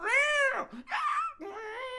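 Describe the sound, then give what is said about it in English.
A person's voice imitates a cat, making three drawn-out, whiny meows with a wavering tone; the first slides downward in pitch at its end. “every single time he talked and had that inner dialogue, the cat was making noise throughout the entire movie.”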